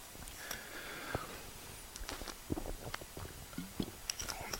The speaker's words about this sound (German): Entschuldigung, ich muss mal einen Schluck trinken.